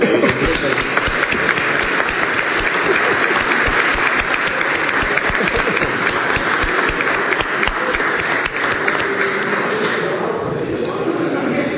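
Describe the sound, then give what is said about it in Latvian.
Parliament members applaud standing colleagues from the Japan cooperation group. The sustained, thick clapping stays loud for most of the span, then thins and softens near the end. “nu piecelieties kājās, mēs jums veltīsim aplausus.”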